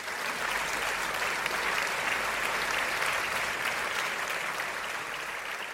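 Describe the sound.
Studio audience applause welcomes a guest onto a talk show: a steady, dense wash of clapping that holds at an even level for several seconds without fading.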